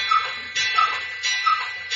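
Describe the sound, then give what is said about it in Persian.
A clock ticking in a steady tick-tock, soft high clicks alternating with broader, duller ticks, several beats in quick, even succession with no other sound. “ساعت باحالی.”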